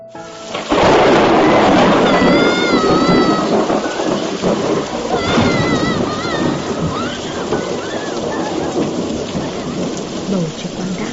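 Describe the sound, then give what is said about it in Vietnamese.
Heavy rain pours down steadily as loud, rolling thunder rumbles almost without pause, swelling in places over the constant hiss of falling water. “Đột ngột vang lên một tiếng sấm rền đinh tai, cả tòa nhà như rung chuyển.”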